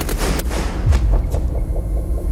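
A firing squad fires a volley at an execution: a few sharp cracks over a heavy, booming low rumble that rolls on after the shots.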